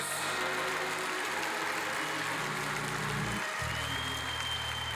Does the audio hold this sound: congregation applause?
yes